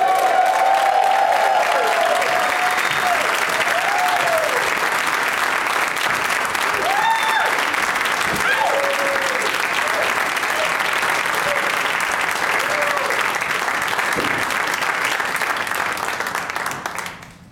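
A live comedy-show audience claps and cheers to welcome a panel of five guests, sustained heavy applause with scattered whoops over it, lasting about seventeen seconds before fading out quickly at the end.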